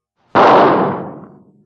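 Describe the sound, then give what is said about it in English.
A single gunshot cracks out with an abrupt, loud attack, its tail decaying steadily over about a second into silence, with nothing else heard. “Now, as for that shot. Here it is.”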